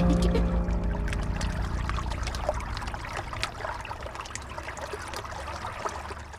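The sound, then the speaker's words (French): The Loire river flowing at Rochecorbon, upstream of Tours, on a frosty winter day: a steady, fairly loud rushing wash of water with fine trickling and splashing detail throughout, and no talk. “Au moment où on enregistre cette émission, où on se retrouve au Pélio, donc à Rochecorbon, en amont de la ville de Tours, sur la Loire”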